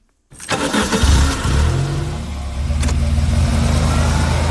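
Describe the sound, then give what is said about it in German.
A car engine starts up in a film soundtrack with a sudden onset, then settles into a steady low rumble of running and driving that swells slightly, with no voices. “Steven Spielbergs erster Film Duell besteht zum größten Teil aus Fahrgeräuschen.”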